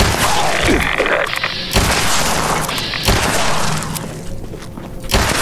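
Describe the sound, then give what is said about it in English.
Pistol shots in a video game fired at a lone enemy: a few loud, sharp cracks spaced about a second or more apart, each cutting through a dense, steady layer of game noise. “Let's try this pistol. That works all right.”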